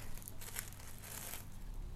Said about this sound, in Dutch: Ik hou van folies. Ik pak hem nu mooi in en dan eh, kan mijn kind hem mooi uitpakken later.